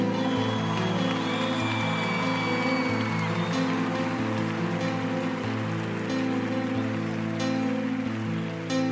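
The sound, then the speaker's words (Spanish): Audience applause at a church gathering, a sustained, steady wash of clapping that holds at an even level under ongoing musical chords. “Un aplauso para ellos, ven.”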